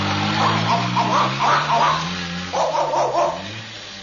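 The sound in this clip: Dogs barking in a quick, overlapping run of sharp yaps, loud and fairly continuous, over a steady low drone.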